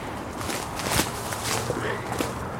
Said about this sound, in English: So I'm just going to go down the slope to see Steve at the bottom, where he is getting kitted up to climb the tree.